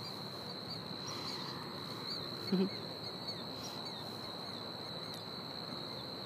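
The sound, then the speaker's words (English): Crickets and other insects chirp on a hilltop, making a steady, unbroken high-pitched drone that stays level throughout, with a faint brief bump partway through. “So I did decide to come up here to the top of the hill. And it's crickets and whatever those things are.”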